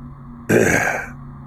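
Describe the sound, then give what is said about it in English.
A man clears his throat in a single rough, raspy burst lasting about half a second, heard alone over a faint low hum. “He clears his throat and seems to think about where to begin.”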